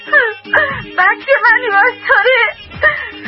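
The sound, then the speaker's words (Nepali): An elderly mother cries and wails loudly in several drawn-out, wavering, sobbing bursts with breaks between them, her voice rising and falling in pitch. “किन रुनु भएको आमा? के हो तपाईँलाई?”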